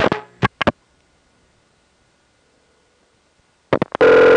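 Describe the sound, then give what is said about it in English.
Distinct switching clicks from a crossbar 5 telephone exchange as its line link pulsing arrangement picks up a call from a step Centrex line. A quick cluster of clicks is followed by a long silence, then another cluster of clicks and a steady tone. “Centrex is homed on a crossbar 5, you can hear the line link pulsing arrangement being picked up by some distinct clicks.”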